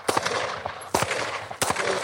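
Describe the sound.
Sharp gunshots from target shooting at a range over 15 metres: several loud, abrupt cracks at irregular intervals, each trailing into a brief ringing decay.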